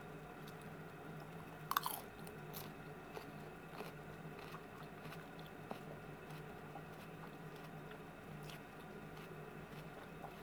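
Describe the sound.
Crisp, faint crunching of raw cabbage being chewed, a steady run of small bites and mastication with one louder crunch near the start, and no talk.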